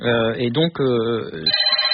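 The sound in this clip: A telephone rings in a hotel room, its bright tonal ring partly under a man's voice as he talks, then carrying on more clearly once he pauses.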